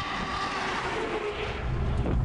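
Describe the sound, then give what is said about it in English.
A taxi drives off up a road in China in baking sun, giving a continuous, fairly loud wash of engine and tyre noise whose low rumble swells toward the end, with no talking. “I'm embarrassed to be getting back in my taxi and driving on up the road when they're going to be biking off in this baking sun.”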